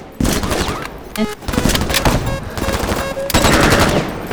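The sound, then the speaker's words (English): Rapid machine-gun fire as soldiers are shot in a video game: loud, dense bursts of shots running almost without a break. “I have a target! I'm shooting him now!”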